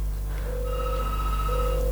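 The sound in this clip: Telephone ringing with an incoming call: steady electronic ring tones at two pitches come and go in overlapping stretches over a constant low hum, with no talk.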